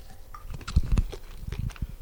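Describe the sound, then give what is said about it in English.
A crunchy bite into a snack with goji berries and cacao nibs, heard as a few short crisp crackles and faint chewing. “And I'm going to taste it. So I have to get one of the goji berries and the cacao nibs for sure. Big bite.”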